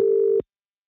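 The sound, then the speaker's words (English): A telephone line tone sounds while an outgoing call is placed to a caller: one loud, steady, mid-pitched tone that holds briefly and then cuts off abruptly into silence. “All right, so next call. I say caller, but we're calling them.”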